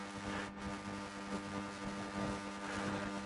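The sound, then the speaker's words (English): Air conditioning running, a steady low mechanical hum with a faint tonal buzz that holds evenly throughout, with no talk over it. “Just so you know, it's not a tornado or anything sucking all the air out of the room, and it's just the air kicking on.”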